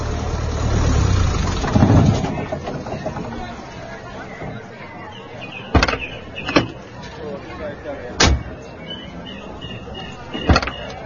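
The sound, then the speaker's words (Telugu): A car engine runs beneath the murmur of a crowd of people talking as the car arrives, with a few sharp knocks or thuds over the chatter. “అదిగో వచ్చేస్తున్నాడు, ఇంకో క్షణంలో ఇక్కడే ఉంటాడు. అదిగో car చప్పుడవుతోంది కూడా.”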